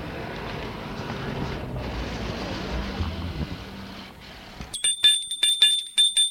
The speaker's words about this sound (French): Gilles, tout intimidé, sonne à l'hôtel des Nanteuil.